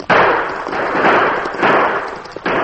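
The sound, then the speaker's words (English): A few sharp gunshot-like bangs from a gun fired into the air during a horseback stagecoach holdup, each with a hard attack trailing into a sustained, noisy roar that fills the gaps between shots. “He fired into the air and raced toward the stage with the three crooks.”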